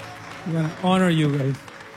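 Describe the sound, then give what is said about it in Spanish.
Audience applause honouring conference helpers, a steady clapping bed with a loud voice calling out over it through the middle. “Así que, ¿por qué no me ayudan a darles un aplauso de honra?”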